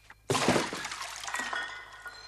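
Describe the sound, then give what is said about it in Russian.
A splash as the base of a dismantled bomb is thrown into water: a sudden loud, bright burst that trails off into a softer, watery wash over the next two seconds. “Вынув капсулу, бросает основание в воду.”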